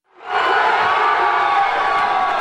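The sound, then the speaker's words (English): A huge crowd of New York Yankees fans roars in Times Square after the Yankees clinched their 27th World Series championship, the noise swelling in quickly and then holding as a loud, sustained cheer. “A huge crowd of New York Yankees fans roared approval in Times Square last night, here recorded by WABC-TV, after the Yanks clinched their 27th World Series championship”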